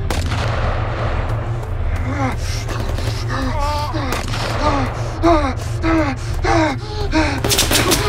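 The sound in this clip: Gunfire is laid down as covering fire in combat. Sharp cracks and booms are scattered over a constant low rumble, with gasps and strained vocal sounds between the shots.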